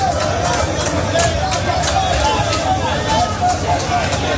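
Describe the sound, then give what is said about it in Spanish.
Crowd hubbub from migrants gathered at the Gambian embassy in Madrid, some trying to get over the fence to seek regularisation papers. Many voices overlap in a steady, dense babble. “Este es el sonido de la embajada de Gambia en Madrid.”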